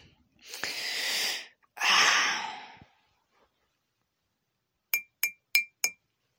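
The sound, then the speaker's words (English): A spoon clinks against a cup after stirring a drink: four quick, bright metallic taps in an even rhythm, preceded by two longer breathy rushing noises and a short silence. “He stirs her cup a little bit with a spoon, removes the spoon from the cup, shakes it lightly, offers her the cup.”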